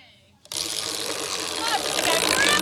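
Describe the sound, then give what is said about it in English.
A big prize wheel spins, and a dense, continuous whirring clatter starts abruptly after a brief quiet moment and keeps going steadily loud. Voices can be heard along with it. “Let's go by the wheel. After you. Nice big spin wheel.”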